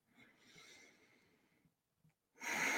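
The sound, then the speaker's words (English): A slow, deep breath drawn in, soft and airy, lasting about a second and a half. A louder burst of breath noise follows after a short pause. “Taking a slow, deep breath in.”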